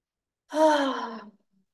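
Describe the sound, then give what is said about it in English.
A single deep breath taken in, drawn as a slow stress-relief breath. It runs just under a second, breathy and partly voiced like a sigh, and sounds alone with no talk around it. “let's just take a big breath in right now.”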